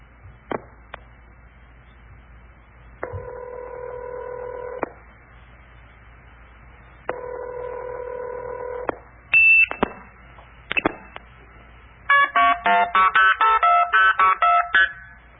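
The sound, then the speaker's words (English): A touch-tone phone dials a number through a phone system. Two long, steady tones come first, then a few short beeps, then a quick run of many short, crisp dialing tones. “And that actually will cause the phone system to dial that number.”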